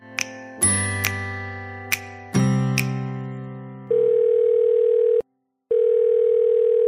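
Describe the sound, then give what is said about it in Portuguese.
Telephone tones while placing a call: a series of bright, bell-like pings over low tones, then a loud, steady dial tone that cuts out briefly and resumes. “vamos ligar para Rafael Carioca e ouvir que histórias ele tem para contar pra gente.”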